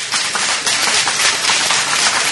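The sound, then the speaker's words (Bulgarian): An audience applauds an actor at a theatre academy event. Dense, continuous clapping stays loud and even throughout. “Да чуя вашите аплодисменти за Джоко!”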